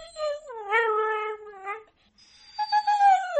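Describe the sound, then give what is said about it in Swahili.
Dog vocalizing out of hunger, heard as two drawn-out whining cries rather than sharp barks. The first falls in pitch and wavers. After a short gap the second comes in higher and more strained. “Kama anavyotueleza Loyan, kila aina ya kubweka ina maana yake. Wanapohisi njaa, wao hubweka vipi?”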